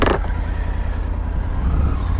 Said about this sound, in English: I have cruise control on the bike. So as I bomb around towns, I can sometimes just do that and ride without the hands.